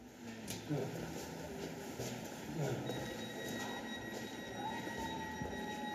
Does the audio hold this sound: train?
yes